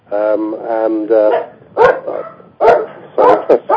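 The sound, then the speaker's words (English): A dog barks loudly in several sharp bursts with yips. Higher whining, tonal sounds come before the barks. “Sorry about that. Dog wants to get on the show there.”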